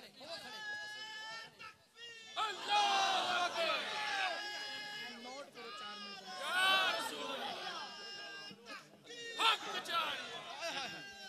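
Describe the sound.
A crowd standing and chanting a slogan at a gathering. Many loud, overlapping voices shout together in surging bursts throughout.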